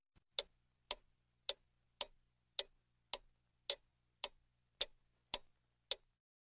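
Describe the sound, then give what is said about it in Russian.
A large clock ticks quietly and evenly, with eleven crisp, sharp ticks spaced about half a second apart after one faint initial click, and no other sound around them. “Мышка подошла к большим часам, и они заиграли чуть-чуть громче.”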